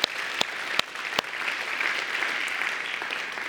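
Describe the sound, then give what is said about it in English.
Audience in a church applauding for the kids, a steady, lively wash of clapping with a few sharp individual claps popping out near the start. “Can you give the kids another big, big, big hand?”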